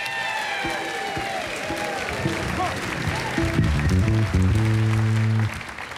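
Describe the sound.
An audience claps and cheers to welcome a banjo player from Bainbridge Island, Washington, onto a concert stage. The applause is dense and steady throughout, and sustained instrument notes join it in the second half before it cuts off near the end.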